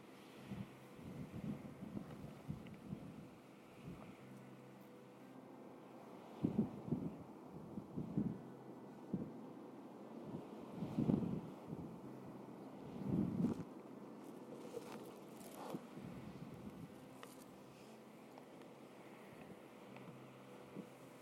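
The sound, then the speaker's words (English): Wind blows across the microphone in faint, low rumbling gusts that swell and fade unevenly throughout. “You can probably still hear the wind”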